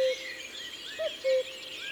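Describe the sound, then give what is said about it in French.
A male cuckoo calls with a soft two-note hoot, the second note lower, amid faint chirps of other birds in the background. “Le coucou s'est rapproché.”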